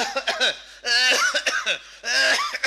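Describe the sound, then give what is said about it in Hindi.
A man's voice imitates a cough with a few drawn-out, throaty bursts that rise and fall in pitch, exaggerated and fairly loud. “कुछ इस तरह की खांसी।”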